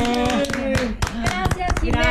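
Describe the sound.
Audience applause rings out in uneven bursts of hand claps at moderate loudness, mixed with people talking over the clapping.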